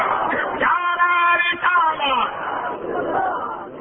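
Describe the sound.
A crowd of voices chants Allahu Akbar together in answer to a takbir call at a religious sermon gathering, a loud unison burst of harmonic voices that swells and then trails off into murmuring.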